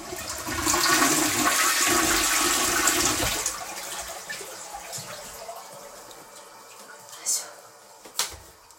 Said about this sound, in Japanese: ちょっとじゃあ流しますね、うるさいかもしれない。